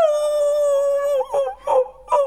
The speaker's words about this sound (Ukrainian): Який добрий песик! Песику, ти, напевно, заблудився? Бідолашний, ти, мабуть, дуже зголоднів.